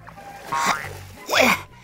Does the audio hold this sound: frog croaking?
yes